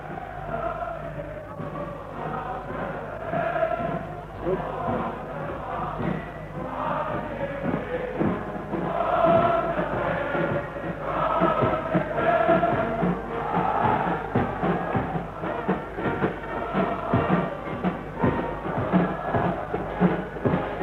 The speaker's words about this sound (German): Wir stehen am offenen Fenster. Sie können jetzt besonders gut hören, wie die Menge jubelt. Wir lassen Ihnen noch einen Augenblick die Musik von draußen ins Fenster hereinschallen.